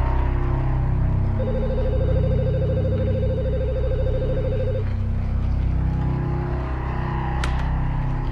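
A telephone rings in a scene from the film Hereditary: a single continuous bright, buzzy trill lasting about three seconds over a low steady rumble, then quieter background hum.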